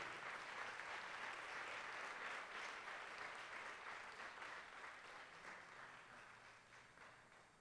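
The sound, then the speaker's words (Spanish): Applause from a church audience during a worship service: a dense, steady clapping crowd that holds level, then gradually fades toward the end. “Denle un aplauso bueno al Señor. Denle un aplauso grande, grande, grande al Rey de Gloria.”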